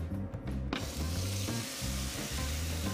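Food fries in a pan with just a little oil, giving a steady, dense crackling sizzle that continues throughout with a low hum beneath it and no talking.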